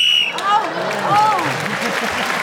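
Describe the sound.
A short, high whistle blast ends a round on the panel game Just a Minute. Audience applause and a man talking follow straight after.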